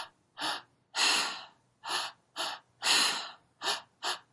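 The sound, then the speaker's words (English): Active three-part breathing through the mouth, drawn into the belly, the solar plexus and the high chest before a mouth exhale: seven forceful, breathy rushes of air, some longer and some clipped short, separated by silence. “It's a three-part breath. It's kind of like they're at an exercise class, a cardio class, but they're using their breath through the mouth the entire time.”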